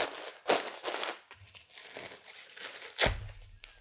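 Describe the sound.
Crinkly plastic rustling as a diaper with many tapes is pulled up and fastened: a few sharp crackling bursts, the loudest near the end, separated by quieter rustles and handling noise.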